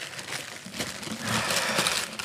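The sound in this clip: Crinkling and rustling of thin grey wrapping paper as a gift is opened: a continuous, fairly soft, papery crackle that grows a little denser and louder over about two seconds, with no speech.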